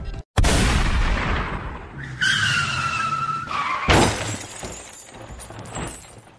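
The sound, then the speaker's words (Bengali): A revolver shot and a car's rear tyre bursting at almost the same moment make one sharp, loud bang. A long high tyre screech follows, then a second heavy crashing impact, with no voices. “প্রায় একই সঙ্গে revolver আর tyre ফাটার শব্দে কানে তালা লেগে গেল”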